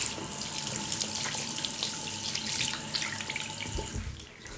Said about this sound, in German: mache ich einfach genau über den Sensor. Und dann kommt die Seife runter. Und jetzt kann man Hände waschen.